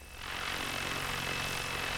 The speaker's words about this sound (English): The chopper looks like a giant dragonfly when it's in the air. It buzzes around above us as Heumann tells it where to go.